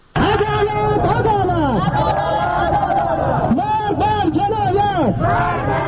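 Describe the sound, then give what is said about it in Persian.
A crowd of Afghan protesters chants loudly in front of the Iranian consulate in Herat, demanding justice over Afghan workers drowned in the border river. Massed voices keep up a continuous, rhythmic chant with rising and falling lines throughout. “صدای این معترضانی که خواستار تامین عدالت در مورد عاملان رویداد غرق کردن کاریجان افغان در حریرود در مرز مشترک ایران و افغانستان شدند.”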